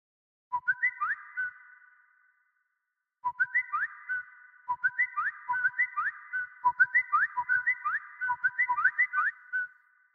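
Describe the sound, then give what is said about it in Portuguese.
A WhatsApp message notification tone sounds from a phone: a bright, whistle-like electronic melody plays once, then after a pause repeats many times in quick succession, clear and alone. “Nesse instante, despertei junto com o incômodo de um aviso no WhatsApp.”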